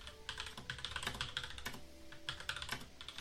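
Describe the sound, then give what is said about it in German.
Rapid typing on a computer keyboard as someone writes a message, with many quick, light keystrokes in irregular bursts, soft and close, with no voices. “ich schreibe dir gerade was auf Discord, ne?”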